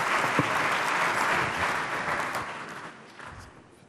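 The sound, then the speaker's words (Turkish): An audience applauds at an official ceremony as guests are invited onto the stage: dense, steady clapping that slowly fades toward the end. “alkışlarımızla sahneye davet ediyoruz. Buyursunlar lütfen.”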